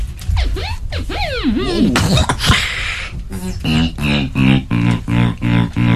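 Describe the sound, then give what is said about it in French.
Beatboxing by a young man whose mouth imitates a synthesizer, with warbling, sweeping pitch glides and sharp percussive hits giving way to a steady run of loud, buzzy pulsing tones. “Il a bouffé un synthétiseur. Il fait ça avec sa bouche là. Ce que vous entendez, c'est avec sa bouche.”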